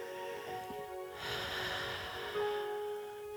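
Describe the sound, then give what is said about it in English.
A slow, deep inhale during a guided meditation, a soft breathy rush rising and settling over steady sustained tones, faint overall. “We take a deep breath”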